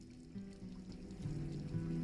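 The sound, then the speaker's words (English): Water runs from a tap while hands are washed, a faint, steady splashing flow that swells slightly partway through. “Nadia turns on a tap and washes her hands.”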